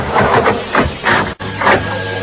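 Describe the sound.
An elevator starts to ascend in a radio drama with a loud mechanical whirring that pulses in a few slow surges, briefly cutting out partway through before resuming.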